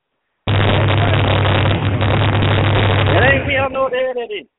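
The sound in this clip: An engine cranked up with a sudden loud roar that holds steady for about three seconds. It then turns rough and pulsing as it drops away, with a voice heard near the end.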